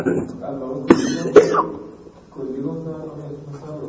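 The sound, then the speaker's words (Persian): Two short, sharp coughs break into ongoing talk, about half a second apart. The talk carries on around them. “آی سرفه نیاد.”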